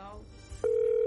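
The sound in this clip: A telephone tone sounds while a call to a relative is being placed. A single steady electronic pitch cuts in partway through after faint low murmur and holds at a constant level to the end.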